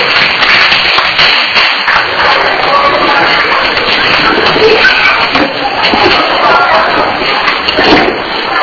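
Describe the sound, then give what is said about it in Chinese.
A group of people clapping their hands together: a dense, continuous patter of many claps lasting throughout, with some voices mixed in. “再来拍手一下”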